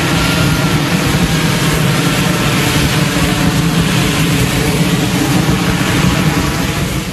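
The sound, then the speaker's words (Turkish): An F-35 fighter jet hovering at low altitude near the Jefferson Memorial by the White House gives off a loud, unbroken engine roar, deep and broad, holding steady throughout. “Bir F-35 savaş uçağı Beyaz Saray'a yakın konumdaki Jefferson Anıtı çevresinde alçak irtifada uçarken görüntülendi. Uçağın bir süre aynı noktada adeta havada asılı kalması dikkat çekti.”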